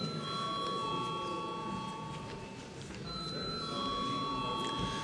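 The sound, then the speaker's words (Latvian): An electric bell rings continuously in a parliament chamber to call a vote. The high, steady ringing tones shift slightly midway and last the whole clip over a low background hum. “lūdzu, zvanu.”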